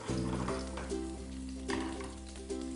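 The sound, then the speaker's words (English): Shrimp fry in a pan as they finish cooking, giving a faint, steady sizzle with a few brief louder bursts like stirring. “You know that they're done as soon as they start turning pink and the tails start curling. As these are finishing cooking,”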